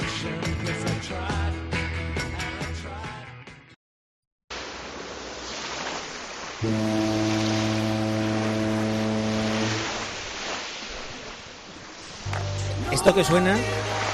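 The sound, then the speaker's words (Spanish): A ship's horn sounds one long, steady, low blast of about three seconds, set between stretches of other sound and noise. “Esto que suena es el barco. Esto que suena es el barco.”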